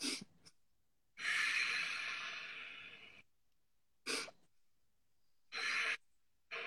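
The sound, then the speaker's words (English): Breathing exercise of two short in-breaths followed by one long, deep, drawn-out exhale, then more short breaths starting the cycle again; soft, airy and quiet, with no talking. “So we're just going to take two in breaths and a long, deep out breath. We're going to do that over and over again.”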